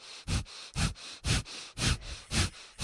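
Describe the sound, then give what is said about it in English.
Rapid nasal breathing from breath of fire in a Kundalini practice: sharp, noisy exhalations repeat in a steady, even rhythm, each a short forceful burst with brief quiet between, with no voices. “She's doing breath of fire. Breath of fire.”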